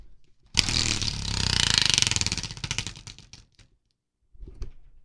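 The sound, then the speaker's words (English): A spinning prize wheel clicks in a loud, dense rattle for about three seconds, the clicks spreading out as it slows to a stop, followed after a pause by a brief burst of sound. “We'll spin the wheel right now.”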